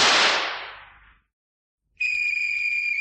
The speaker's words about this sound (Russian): Кто стрелял, кого стрелял, по какому случаю?